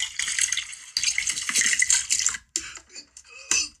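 Liquid pouring with a splashy, hissing water rush in uneven bursts: loud and continuous for about two and a half seconds, then breaking into shorter trickles before a final brief splash.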